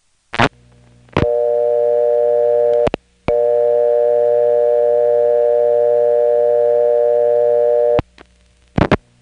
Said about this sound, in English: So I'll put in a dime and dial 553, the local office code, and then 0.